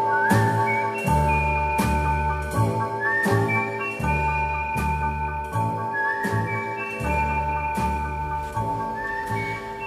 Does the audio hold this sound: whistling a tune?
yes